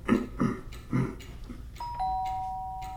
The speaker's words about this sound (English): Yes, ringing the doorbell from the inside.